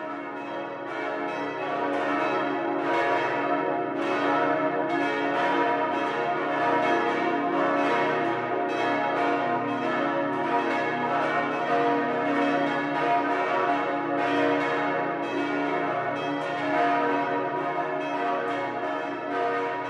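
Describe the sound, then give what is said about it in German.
Six-bell church peal from the Kreuzberg, powerful with a slightly harsh tone, rings as many overlapping bell strikes in a dense, steady wash that stays loud throughout, with no voices. “Das kraftvolle, sechsstimmige Geläut mit leicht herber Klangnote ist vom Kreuzberg bis weit in die Stadt hinein zu hören.”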